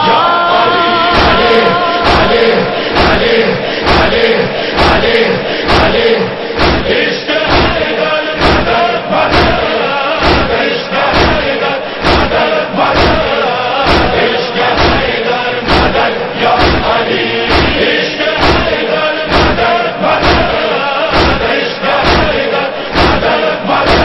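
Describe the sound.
A crowd chants a religious slogan in response, loud and sustained, set against a steady thumping beat that repeats evenly throughout.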